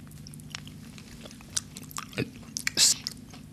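Biting and chewing of a coconut-dipped chocolate with a chewy, toffee-like texture: quiet, irregular soft crunches and wet mouth sounds, closing with a louder burst of chewing.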